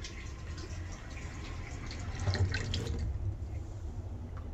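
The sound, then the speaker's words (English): Water runs in a faint, steady wash as a sink overflows, with a few light drips and splashes above a continuous low rush. “Sink overflowing.”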